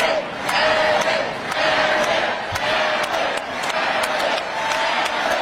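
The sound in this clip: Crowd at a Texas gathering chanting Abbott in unison, the voices driven by steady rhythmic clapping in a loud, repeating pulse that holds throughout.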